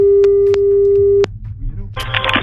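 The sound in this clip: Telephone ringing on a call line: a steady single-pitched tone with faint clicks sounds for about a second, then cuts off and gives way to line noise and brief talk.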